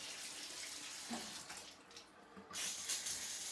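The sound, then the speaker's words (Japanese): Hot water is poured over someone while bathing, a quiet rushing splash that runs throughout and grows fuller in the last second. “温度よし。ほらお湯かけるよ。”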